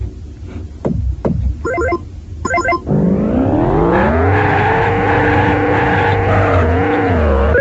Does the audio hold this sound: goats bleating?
no